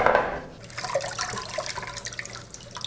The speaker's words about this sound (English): I think I might finally have washed the lettuce enough.